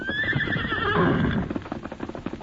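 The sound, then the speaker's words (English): A horse whinnies with a long high call that drifts downward, then many quick hoofbeats clop as the horse is steadied while riders saddle up. “We saddle up. Get ready to ride. Steady, Silver. Easy. Easy, big fella.”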